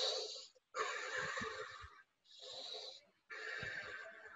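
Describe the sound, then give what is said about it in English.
Deep, slow breathing during a guided eyes-closed exercise: four long, airy, rushing breaths separated by short pauses, faint and with no talk. “is really just taking the time to close your eyes and breathe. So everybody do it with me.”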